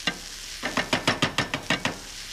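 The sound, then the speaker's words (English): Sweet potatoes and potatoes fry in a pan while a masher breaks them up, making a regular series of squelchy thumps over a constant sizzle. “So just let those sweet potatoes and potatoes go in. Take a little masher and just kind of break it up.”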